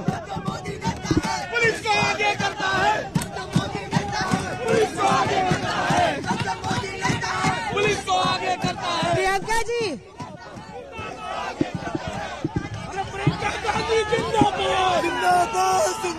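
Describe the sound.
A crowd at a political rally for Priyanka Gandhi chants slogans, many voices shouting in loud, rhythmic bursts that run continuously, with a brief dip partway through before the chanting resumes.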